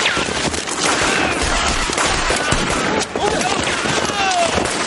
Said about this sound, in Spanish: Los soldados disparan contra los oficiales mientras estos huyen por el barranco.